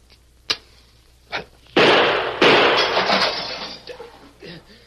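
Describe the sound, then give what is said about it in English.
Gunshots shooting a cigar and a match out of a hand, then a mirror breaking: two sharp cracks followed by a loud, sustained crash of shattering glass that gradually tails off. “Shot the cigar right out of my hand. He snuffed out the match with his other gun. I'm sorry about breaking that mirror over there.”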